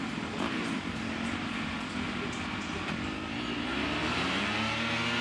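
Drag racing bikes in a lights class final launch off the start line, a loud, sustained engine roar whose pitch climbs as they accelerate.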